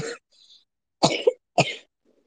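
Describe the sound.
Dry, unproductive coughs: a few harsh, loud bursts separated by short silent pauses, with no talk.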